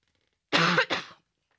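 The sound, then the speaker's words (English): A cough and throat clearing from a tickle in the throat: two quick, rough bursts close together, the first longer and louder, then silence. “Excuse me, I got a tickle in my throat.”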